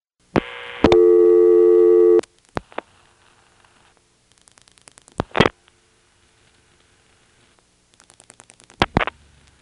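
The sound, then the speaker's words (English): Telephone reorder tone triggered by dialing a callback circuit code into a vacant number level, a loud steady electronic tone held for over a second, followed by scattered faint clicks and ticks on the line. “I'm dialing the code for the callback circuit, followed by something that goes to a vacant level, and then continuing to dial some more digits to fill it out to a total of 7, getting it to put the reorder on over the recording.”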